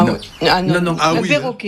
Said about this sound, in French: Un perroquet.